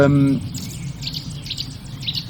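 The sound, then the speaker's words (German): Nuthatches calling close by: a run of short, high, bright chirps repeating in quick irregular bursts, fairly faint over a steady low rumble. “Ui, die Kleiber gehen ab. Kleiberparty neben mir.”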